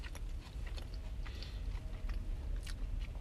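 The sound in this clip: Biting and chewing a fast-food burger with leafy lettuce: a steady run of crisp, wet crunches and soft mashing, several sharp bites spread across a few seconds, with no talking.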